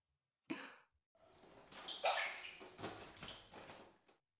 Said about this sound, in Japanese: すぐ足湯を用意しますね。